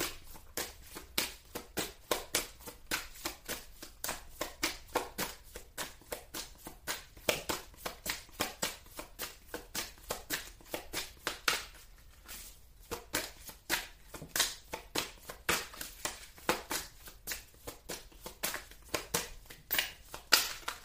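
Tarot cards shuffled and drawn for a Pisces reading: a long, quiet stream of quick soft slaps, taps and rustles in an uneven rhythm, with no talk.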